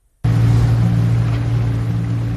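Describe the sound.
Motorboat engine running on the Dead Sea: a loud, steady, low droning hum of unchanging pitch that begins abruptly after a moment of silence and carries on alone.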